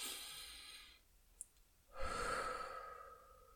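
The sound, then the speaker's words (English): Deep, calming breaths, drawn in through the nose and let out through the mouth. A long, soft, airy exhale fades into a pause, then another slow breath sweeps in and trails off in a sighing release. “my favorite way to re-regulate my brain and body is to take 3 deep cleansing breaths in through the nose and out through the mouth”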